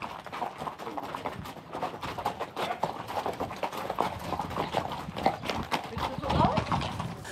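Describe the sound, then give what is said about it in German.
Hooves clip-clop as horses are ridden out through hilly countryside. The steady, uneven hoof strikes run beneath a person talking throughout. “Ansonsten bestimmt das Ausreiten durch die Hügellandschaft den Alltag.”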